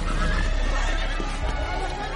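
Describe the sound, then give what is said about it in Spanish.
Horses whinny as Balian and Sibylla ride out at the head of their men near Kerak Castle in a medieval Crusades film. Shrill neighing sits in a dense, continuous wash of hooves and movement. “Valian y Sibila cabalgan al frente de sus hombres.”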